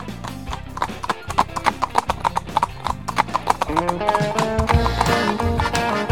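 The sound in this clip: Horse trotting, its hooves clip-clopping in a loud, steady rhythm of many quick beats that grow denser toward the end.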